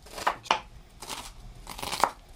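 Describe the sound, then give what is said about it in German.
A knife chops onions into small pieces, making a few quiet, crisp cuts at uneven intervals. “Die Zwiebeln werden flink in kleine Stücke geschnitten.”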